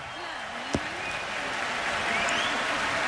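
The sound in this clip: An audience applauds at an outdoor summer concert in Berlin on a day above 30 degrees, a dense wash of clapping that swells slightly while a voice talks over it.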